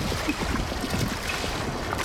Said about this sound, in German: Die Welle bricht augenblicklich. Das Wasser zieht sich mit Macht zurück.